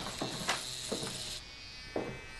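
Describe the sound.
Electric clippers shave a boy's head to deal with lice, giving a steady high buzz with a few brief louder surges as the blades pass over his scalp.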